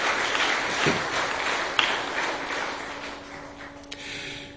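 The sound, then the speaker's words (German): Applause from an audience thanking a team of volunteer helpers: a steady wash of clapping that slowly fades toward the end. “Applaus”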